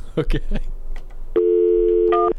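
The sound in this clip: A steady electronic telephone line tone lasting about a second as a call is connected, following a few short voice sounds.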